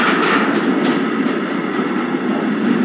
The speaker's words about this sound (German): ja, irgendwelche, ich würde sagen, es ist Gas oder irgendwas Flüssiges. Euro-Tanker.